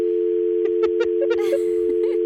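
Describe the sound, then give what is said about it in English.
A telephone dial tone sounds as a call is placed: one steady, unbroken hum runs the whole time, with several short clicks and taps over it. “Let me try and call you.”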